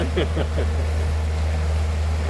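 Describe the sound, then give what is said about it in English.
A low, steady engine rumble from boats on the water at a marina, with a constant wash of wind and water noise. A few brief voice sounds occur near the start. “So this is a marina where we keep our boat.”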